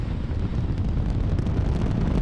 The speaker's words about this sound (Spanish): Parece que se está levantando una tormenta de polvo. Empieza a ponerse bastante molesta y apenas me deja visibilidad.